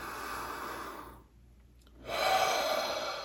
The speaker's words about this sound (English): So as you're settling in, let's just take a breath or two.